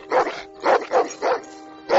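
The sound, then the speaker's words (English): A guide dog barks in a quick series of sharp, harmonic barks with short gaps between them, loud and clear with no talk over them. “He's my blind seeing eye dog.”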